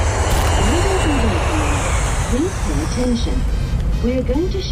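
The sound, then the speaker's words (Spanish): The steady low drone of an airplane engine in flight, a continuous, loud rumble. A person talks over it throughout. “¿Estás seguro de que este avión vuela a Ávila?”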